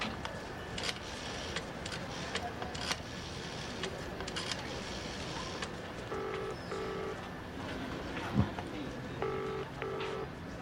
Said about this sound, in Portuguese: ele girou três números no telefone. Eu tenho certeza que uma ligação internacional é mais do que isso.